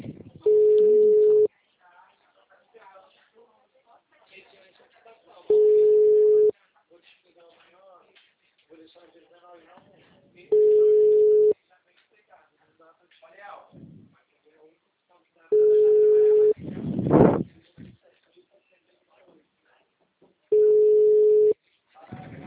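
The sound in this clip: A phone call rings out unanswered: five evenly spaced, steady mid-pitched ringback tones, each about a second long with several seconds of gap between, while faint rustling and murmuring fill the pauses and a brief louder scuffle breaks in near the fourth ring.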